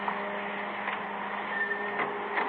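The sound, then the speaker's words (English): A dryer runs in a photographic darkroom, making a steady mechanical hum with a thin tonal whine and light rattles that stay even throughout. “Kill that dryer, will you?”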